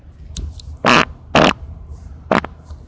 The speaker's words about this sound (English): Farted on you.